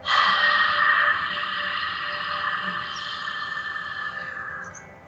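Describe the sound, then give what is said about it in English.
A mirror-fogging breath exhaled through the open mouth, a long breathy 'haaa' with a faint voiced tone, loud at first and slowly fading over about five seconds, alone. “breathing in through your nose, holding your breath, and as it goes out, you make a mirror fogging sound like.”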